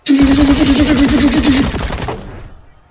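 Rapid sci-fi gunfire from a Gatling laser rifle: one loud, continuous burst of fast, buzzing pulses over a warbling tone, lasting under two seconds before tailing off into a fading rumble.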